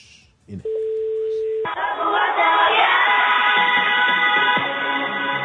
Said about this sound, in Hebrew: אוקיי, אנחנו מחייגים. בבקשה, מחייג ונשמע.